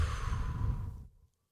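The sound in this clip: A single deep breath ends in a long, soft, whooshing exhale during a calming breathing exercise, steady at first, then fading quickly into silence.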